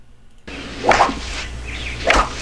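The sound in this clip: A golf club swings and strikes the ball, heard as two sharp swishing hits, each a quick bright crack, over a low steady background.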